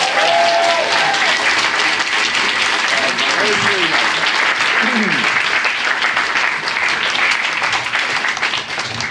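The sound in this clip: Audience applause welcomes guest Paddy Ashdown onto a talk show stage, dense and loud clapping that holds steady for the whole stretch, with a voice briefly heard over it.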